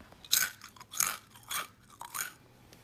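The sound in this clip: Crunching on seasoned chips: four crisp, brittle crunches at an even, unhurried chewing rhythm, fairly soft and close, with no talking.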